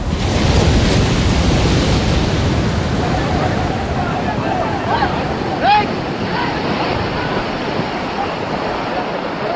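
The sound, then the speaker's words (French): A roaring surge of water from the 2004 tsunami, a wave nearly 15 metres high, crashes onto the Indonesian coast. It makes a loud, continuous, rumbling wash with wind-like hiss, and faint voices briefly surface midway. “une masse d'eau de près de 15 mètres de haut déferle sur les côtes indonésiennes, emportant tout sur leur passage.”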